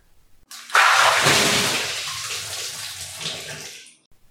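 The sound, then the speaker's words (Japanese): Hot water poured over a person's head for hair washing: a steady, rushing splash that starts abruptly, is loudest at first, then slowly eases over about three seconds before stopping. “お湯かけるから目つむって。”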